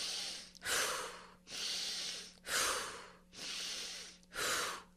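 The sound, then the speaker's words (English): Deep, short breaths of a breathing exercise, taken as about five forceful, airy bursts in a steady rhythm, each rushing in or out with a noisy hiss and no speech. “Wim says you should take 30 to 40 deep, short breaths like this”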